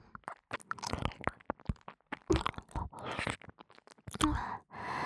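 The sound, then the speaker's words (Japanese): Hard candy crunches between the teeth in many short, sharp, irregular crackles, fairly faint and without talk. “アメ、おいしいな。”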